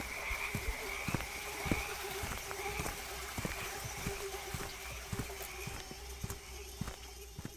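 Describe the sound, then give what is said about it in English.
Bullfrogs croaking in the evening on an island: faint, repeated low croaks mixed with many sharp clicking pulses at an uneven pace, over a steady background hum. “and the belch of bullfrogs in the evening.”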